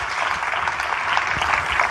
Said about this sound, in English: Warm round of applause for Terry and her book, The Plugged-In Manager.